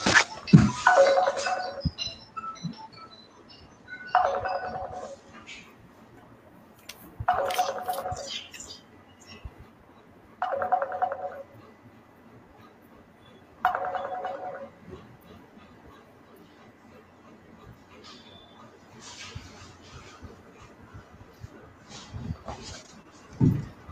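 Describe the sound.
A telephone rings in faint, evenly spaced bursts, about five rings roughly three seconds apart, with quieter stretches between them.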